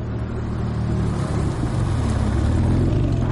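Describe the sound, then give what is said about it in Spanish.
Engine rumble from sports cars, a black Porsche, a red BMW and a white Porsche Panamera, driving out of a tunnel: a continuous, loud, low drone of engines with a broad noisy hiss above it, cutting off abruptly at the end. “Primero el Porsche negro de Navas, detrás el BMW rojo de Nano y por último, siguiéndoles, el Porsche Panamera blanco de Mikkel. Salen del túnel, ya es de día.”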